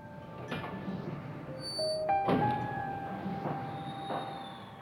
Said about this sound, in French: La porte n'en finit pas de grincer.